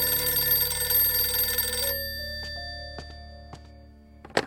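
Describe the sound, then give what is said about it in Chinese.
A telephone bell rings in a mansion in the middle of the night: a dense, shrill metallic ringing for about two seconds. It then cuts off, leaving a fading tone and a few faint dings. “所有人都被半夜的一通电话给吵醒了。”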